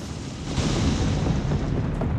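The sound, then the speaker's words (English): Roar of an American space rocket lifting off, a dense, steady rumble that stays loud and broad for the whole stretch with no clear breaks or voices. “An American space rocket blasting off.”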